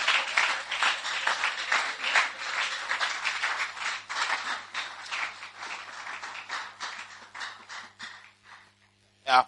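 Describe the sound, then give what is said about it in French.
A church audience applauding during worship, brisk many-handed clapping in a steady, rhythmic pattern that gradually thins and fades, ending with a short burst of voice. “Si vous acclamez, acclamez pour Dieu, acclamez pour Dieu. Acclamez pour Dieu.”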